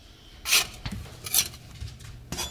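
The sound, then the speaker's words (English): Metal spatula scraping and clinking against a hot baking surface as small pita flatbreads are flipped in the oven, a few short scuffing strokes spaced irregularly over fairly quiet background noise. “All right, I'm going to flip these pitas over. I think it's easier with a spatula than using the peel.”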